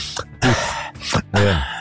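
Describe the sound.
A voice imitates a person breathing in deeply, with a few loud, drawn-out breathy vocal sounds, two long heavy ones separated by short pauses and softer catches of breath in between.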